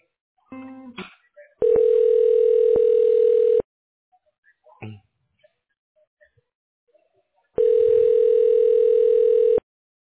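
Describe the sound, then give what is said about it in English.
A phone call is transferred to voicemail. Two long, steady ring tones of about two seconds each are separated by a quiet gap with a few faint clicks and brief blips. “Is it okay if I transfer you to his voicemail? Sure. Go ahead, ma'am.”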